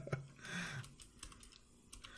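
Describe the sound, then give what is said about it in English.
Typing on a computer keyboard: faint, quick keystroke clicks in an uneven rhythm, with soft taps continuing through the short clip. “I'm going to type his name in.”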